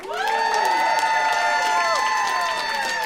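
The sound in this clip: Audience applause and loud cheering welcome a guest to an interview: continuous clapping under high whoops and shrill cheers that hold steady for the full few seconds.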